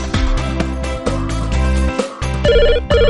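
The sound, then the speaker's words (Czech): A melodic electronic ringtone sounds for a mother's incoming phone call, a bright repeating tune over a steady pulsing bass, loud and continuous with one brief dip in the middle. “Maminka je právě na drátě, má něco na srdci, tak proto volá tě. Maminka volá, zvedni to, mamince.”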